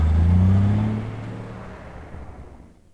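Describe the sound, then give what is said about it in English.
A semi truck's engine drones past on a desert road, a loud, low, steady rumble that gradually fades away over a few seconds. “A semi rolls past him and Jeff stops by the side of the road. The truck continues toward mountains on the desert horizon.”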